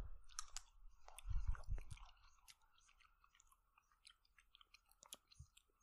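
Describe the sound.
Crunchy chewing of green fennel: many moist, crisp bites and grinding mouth sounds come in irregular clusters, loudest near the start and then quieter and sparser, with no talking.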